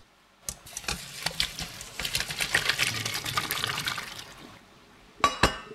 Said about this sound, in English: So take your pasta and drain it through a colander.